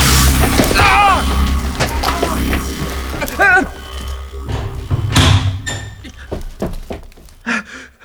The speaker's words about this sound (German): Die Bodenluke wurde verriegelt.